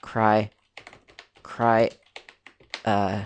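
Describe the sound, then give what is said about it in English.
A password being typed on a computer keyboard, with quick light keystroke clicks scattered between stretches of someone talking. “Okay, well, I'll type in my password of bogus123.”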